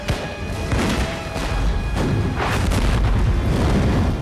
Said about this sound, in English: The Spanish fire at him.